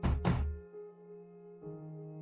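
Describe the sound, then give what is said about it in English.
Two heavy bangs on a door, dull thudding knocks in quick succession, followed by a steady low hum. “Bang on the door.”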